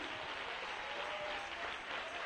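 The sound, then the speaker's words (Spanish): Applause from an audience at a Christian worship service: dense, steady clapping that holds at an even level throughout, with no voices standing out. “Dale palmas al Rey, aleluya. Dale gloria a Cristo. Oh, un aplauso de júbilo al Rey.”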